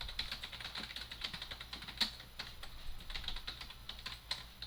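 Typing on a computer keyboard: many quick keystroke clicks in an uneven rhythm, quiet and steady, without speech.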